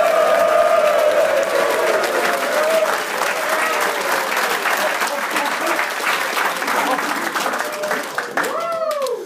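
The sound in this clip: A live studio audience applauds at a show featuring a university football team. The clapping is dense and sustained, with some voices mixed in.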